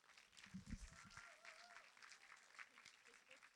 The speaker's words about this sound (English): And so we put your hands together and welcome her this morning as she shares.